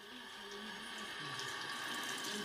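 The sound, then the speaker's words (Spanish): Hands rinsed under a running tap: an even, continuous hiss of flowing water from start to finish, with no voices. “la experta en higiene hospitalaria Úrsula Pérez Lem recomienda, además de desinfectantes, enjuagar el virus de las manos”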